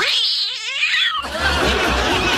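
A man imitates a demonic cat at an animal-imitation contest: a loud, wavering, yowling tone that slides downward, then gives way to a dense, noisy burst of laughter.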